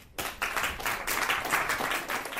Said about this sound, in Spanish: Con estas palabras de agradecimiento y un aplauso, recibió la bienvenida a Chequia Pía Figueroa